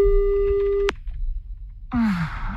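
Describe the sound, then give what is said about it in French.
A telephone line tone while a call is being placed: a steady, single-pitched buzzing tone that cuts off abruptly just under a second in, followed by low noise and a breathy, falling vocal sound. “Faites attention, c'est parce que l'on appelle. Faut pas parler quand ils décrochent”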